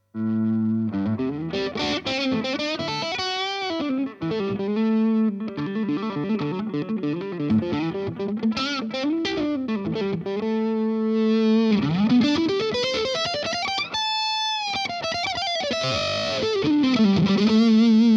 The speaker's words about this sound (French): on va partir sur du crunch en micro-manche avec un petit peu de jeu au volume pour voir si c'est progressif.